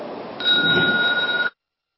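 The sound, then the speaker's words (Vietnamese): A bell is struck once in a Buddhist temple, giving a clear, steady ringing tone that holds for about a second before cutting off abruptly. “Nghe tiếng chuông, đại chúng đồng khởi thân.”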